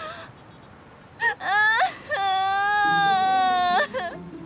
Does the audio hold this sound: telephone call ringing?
no

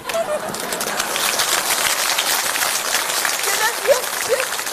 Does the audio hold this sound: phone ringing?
no

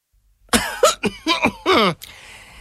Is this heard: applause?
no

